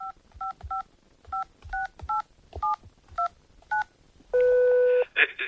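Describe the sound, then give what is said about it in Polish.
Telephone keypad tones as a phone number is dialed: a quick run of about nine short, evenly spaced beeps, followed by one longer steady tone and a brief final tone. “Już dzwonię.”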